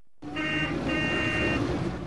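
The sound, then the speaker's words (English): Two army trucks driving through a village: a broad engine rumble that starts abruptly and holds steady, with a high tonal whine that comes and goes twice above it. “two army trucks drive through the village”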